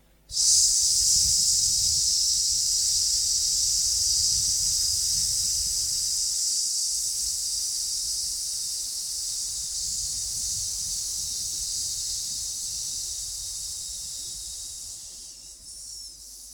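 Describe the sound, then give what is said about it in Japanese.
A long, steady, loud 'sss' hiss is exhaled during an abdominal breathing exercise, with the belly squeezed in from the sides. It holds evenly for many seconds, then fades slightly toward the end. “発声していきますね。スーっていきますね。じゃあいきます。”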